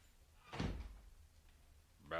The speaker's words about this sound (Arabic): خليه يقفل الباب كمان. اقفل الباب وراك يا مرجان.